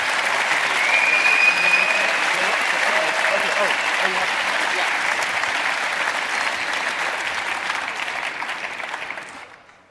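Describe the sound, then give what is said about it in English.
A large conference crowd at the Chaos Communication Congress gives a speaker a big round of applause. The dense, loud clapping holds steady for several seconds before tapering off at the end. “And without any further ado, the man who needs to stop playing with DNS, Dan Kaminsky, give him a huge round of applause.”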